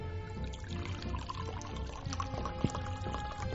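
Liquid poured into a glass held up to a microphone, a steady trickling, bubbling wash that runs for a few seconds at an even level.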